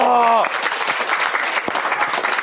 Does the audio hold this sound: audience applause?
yes